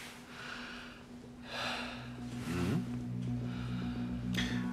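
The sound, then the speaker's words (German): Deep breathing in and out during a medical examination: a few broad, airy breath bursts rise and fall over a steady low hum, with no talk. “Einmal tief ein- und ausatmen, ja?”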